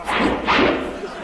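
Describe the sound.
Two quick whooshing sound effects, each a broad airy rush that swells and fades, the second slightly longer than the first, loud and without voices.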